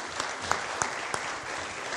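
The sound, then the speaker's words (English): Audience applause for a family at a church service, a soft, steady patter of clapping with a few sharper claps standing out. “All right, let's have a round of applause for this family.”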